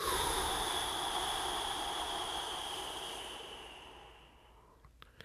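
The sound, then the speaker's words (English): A slow, drawn-out breath during a guided breathing exercise: a steady, airy rush that gradually softens and fades away over about four seconds. “In through your nose for a count of four. Hold for seven. And out for eight.”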